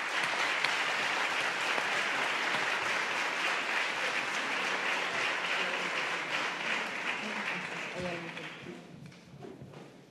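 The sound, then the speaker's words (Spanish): Audience applause at a conference panel session after a poem reading: dense, continuous clapping that holds steady for most of the time and then thins and fades over the final second or two. “esos aplausos son para ellas.”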